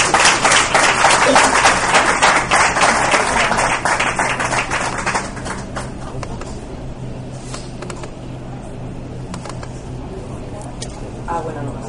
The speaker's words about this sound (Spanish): un fuerte aplauso a nuestra amiga Aroa.